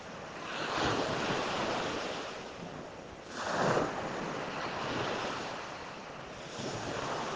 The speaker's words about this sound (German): Schließe deine Augen und tauche vollkommen ein in dieses wunderbare Meeresrauschen.